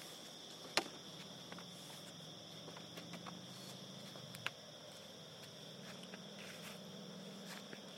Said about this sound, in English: Sorry, I'm being so slow walking.